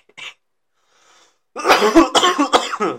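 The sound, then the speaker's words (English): A person coughing, a rapid cluster of several harsh, loud bursts after a faint short sound and a pause. The coughs come in quick succession with no speech. “I've been starting to have like a little bit of a cough.”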